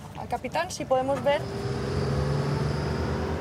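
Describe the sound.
Boats cast off to check yacht anchors, a motorboat engine settling into a steady, low humming drone with a tonal whine, following a brief voice at the start.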